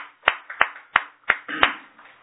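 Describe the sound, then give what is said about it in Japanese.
Applause for a daughter's 45th birthday, heard as five separate sharp hand claps in an even, slightly slow rhythm, crisp and distinct against near silence, with no talk. “盛大な拍手でお願い”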